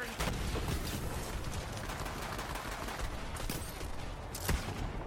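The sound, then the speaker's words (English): Gunfire in the video game Borderlands 3: a dense, continuous rattle of shots at steady loudness, with a few sharper cracks standing out above the barrage. “I just shot someone. I didn't even know they were there.”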